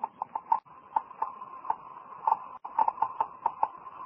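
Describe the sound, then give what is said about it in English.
Geiger counter clicking as it detects radioactivity, many sharp, dry ticks in an irregular, uneven rhythm, fairly faint, with no other sound over them. “That sound is being made by a Geiger counter, a device for detecting radioactivity.”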